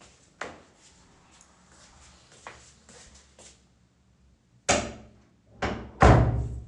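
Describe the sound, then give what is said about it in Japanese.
Bathroom door being pulled shut, heard as a few separate knocks and thuds, faint at first and then a louder cluster of heavy bumps near the end. “浴室だと結構響いちゃうので声が、よいしょ、はい、ちょっと扉閉めます。”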